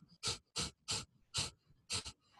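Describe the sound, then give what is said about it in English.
A quick series of sharp, forceful nasal exhales in the breath-of-fire breathwork technique, each a short puff of air, fairly faint and evenly paced. “Or there's another one called, which is a version of breath of fire, which is, you know, very rapid exhales through the nose. So if I was to demonstrate briefly,”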